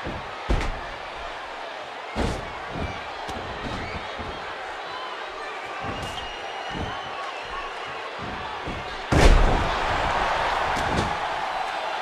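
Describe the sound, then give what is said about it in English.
Power slams in a wrestling match, a wrestler's body driven hard onto the ring mat: a few sharp booming impacts, the loudest near the end, over a steady crowd murmur. “Oh, and a huge power slam by Glacier as well on the Fit Finlay. Sends Finlay off. And another power slam.”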